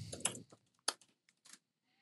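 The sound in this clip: Quiet typing on a computer keyboard: several soft, irregular keystrokes with short pauses between them.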